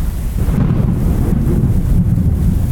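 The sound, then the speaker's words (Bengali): A violent storm with wind, rain and thunder roars continuously and loudly, dominated by a deep rumbling low end under a steady wash of hiss, with no voices. “হঠাৎ থেকে এসে বাধা দিল প্রচণ্ড ঝড় বৃষ্টি মুহুর্মুহু বিদ্যুতের ঝিরিক আর মেঘের গর্জন”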